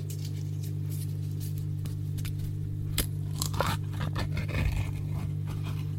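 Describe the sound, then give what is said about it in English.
Crinkly scrapes of a foil lid being peeled off a strawberry jelly pot and soft squelches of fingers pressing into the jelly, faint over a steady low hum, with no talking. “There, I've took the foil lid off it. There's my fingers in the jelly.”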